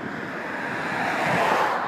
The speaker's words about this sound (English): I apologise for all the wind noise